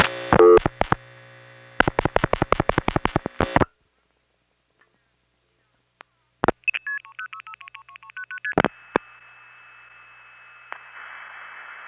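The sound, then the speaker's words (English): Telephone dialing passes from a crossbar tandem into a step-by-step exchange. Rapid bursts of dial-pulse clicks come first, then after a quiet gap a quick sequence of short signalling tones, followed by a steady tone and faint hiss. “instead of dialing into a step tandem, the Regina crossbar tandem is simply dialing into the step in the same building.”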